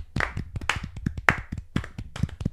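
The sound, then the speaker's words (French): Hand claps applauding hockey player Sergei Gonchar for reaching 1,300 regular-season games: many quick, irregular, sharp claps in a steady run with no voices. “bonne main d'applaudissement pour Sergei Gonchar qui a franchi le cap des 1300 matchs en saison régulière.”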